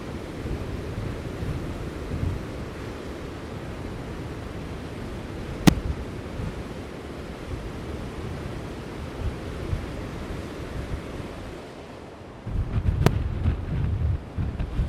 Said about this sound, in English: Right on the edge of the cliffs. Seawater swirling around a bit below me.